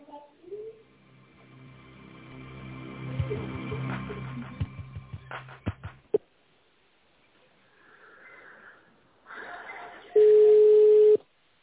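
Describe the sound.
Telephone line tones as a call is being connected: several seconds of softer, muffled sounds on the line, a brief quiet gap, then a loud steady tone for about a second near the end.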